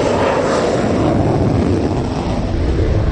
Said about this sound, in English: 70,000 pounds of thrust, Mach 2 speeds, 9 Gs, add vertical acceleration, maneuverability, and stealth, and you've got the sauce that makes the F-22 Raptor the world's fastest jet fighter.